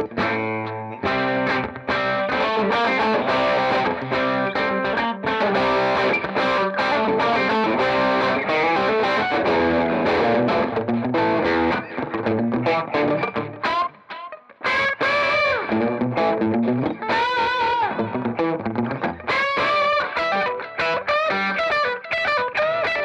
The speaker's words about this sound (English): So I play some like single note solo-y stuff, you know? Like a Boomer Blues licks or anything like that.